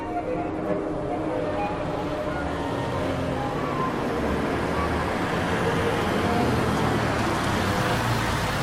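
A car driving through the desert gives off a steady, continuous low rumble of engine and road noise that stays even throughout.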